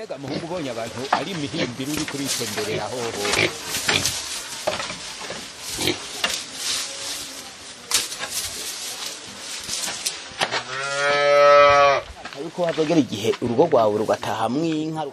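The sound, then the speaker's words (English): Farm animals calling around a village farmhouse set among banana tree fields. A loud, drawn-out, harmonic bleating cry stands out near the end, and people talk throughout. “We hear their farm animals making noise nearby.”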